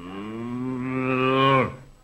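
A single long, low cow moo holds steady and rises slightly in pitch before breaking off abruptly, loud and alone.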